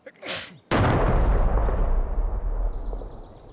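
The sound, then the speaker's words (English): A single loud gunshot blast, a shot fired at a bridge held by Redcoats, bursts out abruptly after a brief softer sound. A long rumbling tail follows, slowly fading with scattered crackles. “Out of, let's say, nowhere, maybe, according to historians at least, a shot was fired. It was so loud, some say it was heard round the world.”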